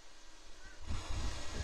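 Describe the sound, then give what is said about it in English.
Wind blowing outdoors on a sunny, windy day: faint, low rumbling buffets against the microphone that swell and grow stronger halfway through. “And it's very nice out here. It's like windy, very sunny.”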